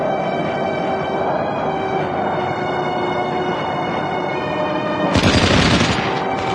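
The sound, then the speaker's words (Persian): Anti-aircraft guns fire at a plane on a combat mission, a steady droning hum running throughout until a dense, crackling burst of rapid fire breaks in near the end. “سمایی سعی میکنه ماموریت رو تموم کنه که با ضد هوایی ها هدف قرار میگیره.”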